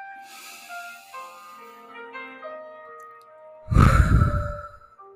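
A deep exhaled breath during a guided breathing exercise: one loud, breathy sigh that fades out, following a stretch of faint, soft sustained musical tones.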